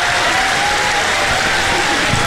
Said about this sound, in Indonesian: Ha, okey, kita tepuk sekali.